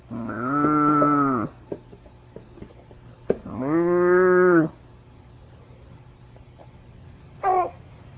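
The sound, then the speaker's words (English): Two long, level cow moos shown to a baby, each lasting over a second with a steady, hollow tone and separated by a pause, followed later by a short, higher vocal sound over a faint steady hum. “See the cow? You like him too. He goes,”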